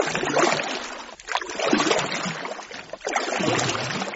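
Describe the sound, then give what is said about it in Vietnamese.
Water churns and sloshes as a small boat is poled hard through seasonal floodwater, a continuous rushing swirl broken by two brief dips in loudness. “Rồi ra sức chống xuồng đi ồ ồ.”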